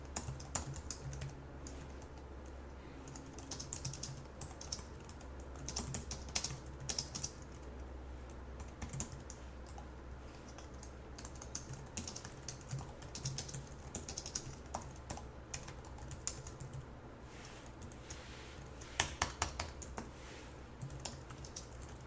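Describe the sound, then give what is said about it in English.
Steady typing on a computer keyboard: many soft, quick keystrokes clatter continuously and fairly faintly throughout, with a few slightly louder taps and no voices. “And then I'm just going to begin typing away here.”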